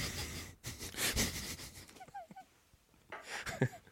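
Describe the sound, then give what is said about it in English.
A nose exhale used as a fake laugh: a few soft, breathy puffs of air forced through the nose, noisy and low in level. “which is usually more of an N-E, which is a nose exhale, which I'll do one of those right now.”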